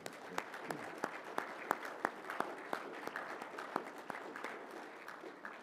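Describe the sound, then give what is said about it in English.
A church audience applauds to welcome new members during a service. The clapping is faint and steady, with many claps and a few sharper ones standing out across almost six seconds. “Please join me in welcoming these as members of our church. Let's give them a hand.”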